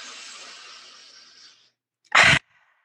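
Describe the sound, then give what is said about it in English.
Forced breathing during a guided breathing exercise: a long, hissing breath fades out, and after a short silence comes one sharp, forceful burst of breath. “Forced in through the nose, forced out through the mouth.”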